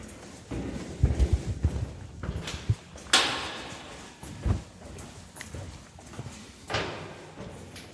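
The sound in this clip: Footsteps climbing the stairs to an upper gallery in an exhibition building: a few irregular thuds and knocks of varying loudness, with the heaviest cluster near the start and scattered steps after.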